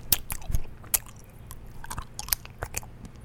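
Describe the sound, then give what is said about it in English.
Someone eats a caramel apple sucker: many sharp, wet clicks and crunches from biting and chewing, with an uneven rhythm, faint and heard alone. “I'm eating one of those, like, caramel apple suckers, so.”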